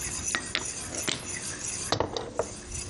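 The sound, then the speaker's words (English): Continuous stirring in a pan while cooking, with a utensil faintly scraping and clinking against the cookware. Irregular light taps and chinks sound over a soft, steady background. “And so the whole time you're doing this, you want to make sure that you're stirring continuously.”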